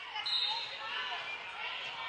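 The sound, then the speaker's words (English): A volleyball is dribbled on a gym floor before a serve at a high school match, a few faint bounces low under quiet hall ambience. “Takes a couple dribbles, tosses it up, fires it across.”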